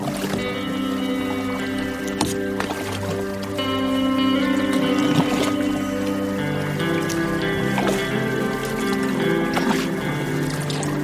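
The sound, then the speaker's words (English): Paddle strokes dip into river water as a canoe moves upriver, soft splashes and drips recurring at irregular intervals over a steady low hum. “Let's paddle a little further upriver here before we go back and have some dinner.”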